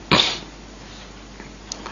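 A single abrupt, forceful sneeze at the very start, followed by low, steady background hiss with only a few faint small noises.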